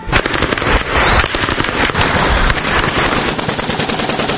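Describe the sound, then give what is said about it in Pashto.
Gunfire at a street protest in Afghanistan over a Quran burning: loud, rapid cracking shots in dense overlapping bursts that run continuously with no clear pauses. “په کابل او کندوز کې مظاهره سولې زیوی خو په ګردیز او خوست کې بیا ډز پکې شوې.”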